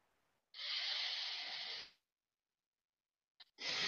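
Forceful exhalation during a yoga breathing exercise that compresses the ribs: one long, rushing, hissy breath out that stops abruptly, then silence before a second breath begins.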